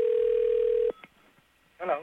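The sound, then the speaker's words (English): A telephone dial tone for placing a collect call: a loud steady hum that cuts off abruptly, followed by a few faint clicks and a short quiet gap before a voice starts speaking. “That's all we do is dial 1-800-COLLECT.”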